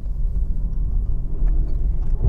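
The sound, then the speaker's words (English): Steady low rumble of a car driving slowly over fresh, fluffy snow while its snow tires are being tested, a continuous dull roar with no clear breaks. “So we've got this lovely, fresh, fluffy snow that just gonna test my snow tires out on,”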